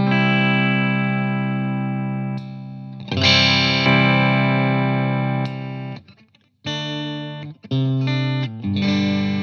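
Second double-cut electric guitar played through an amp: a few ringing, harmonically rich chords and notes that sustain and decay, with short breaks and fresh strums near the end.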